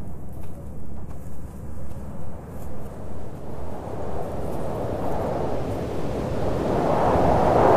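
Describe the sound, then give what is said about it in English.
Strong desert wind rises toward a sandstorm as a broad, rushing roar with rolling gusts, growing steadily louder and harsher toward the end. “Ugh. The wind's getting bad.”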